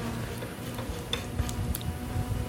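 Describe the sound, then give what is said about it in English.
Faint metallic ticks and light scraping as bicycle wheel axle nuts are tightened by hand, a few brief clicks over a low rustling background. “Down the axle nuts again by hand.”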